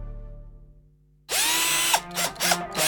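Power drill sound effect in a tool shop advert: after a fading tonal tail and near-silence, a loud whirring drill starts abruptly, then cuts into a few short revving bursts.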